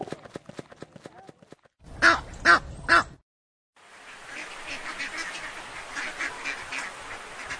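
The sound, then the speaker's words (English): Duck quacking: three loud, nasal quacks in quick even succession, followed after a short gap by a steady, noisy wash of sound. “Duck.”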